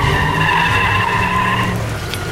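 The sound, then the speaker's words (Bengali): A car brakes hard and skids to a stop on a road, its tires letting out one long, loud, steady screech that eases slightly toward the end. “হিয়া প্রায় গাড়িটার সামনাসামনি গিয়ে পড়েছে বলে গাড়িটা জোরে break কষে দাঁড়িয়ে গেল।”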